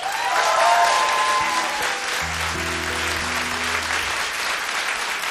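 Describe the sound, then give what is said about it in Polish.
Audience applause honouring a singer celebrating forty years of her career: steady, dense clapping fills the whole stretch, slightly louder at first, with low sustained musical tones entering partway through. “Brawa dla naszej cudownej Ewy.”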